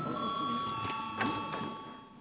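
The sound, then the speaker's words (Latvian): An electric bell rung in a parliament chamber to call members to a vote, a steady, continuous high ringing tone held throughout, with voices murmuring underneath. “Lūdzu zvanu.”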